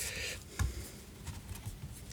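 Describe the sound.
Paper rustles softly as a letter envelope postmarked Windsor, slit open along the top, is handled and opened. Faint scratchy crinkles surround one louder soft knock.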